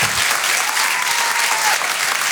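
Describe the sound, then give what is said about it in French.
An audience at a comedy club applauds, a dense and loud burst of clapping that stays even throughout, with no voices standing out. “Faites du bruit, s'il vous plaît, pour Sophie Loustalot.”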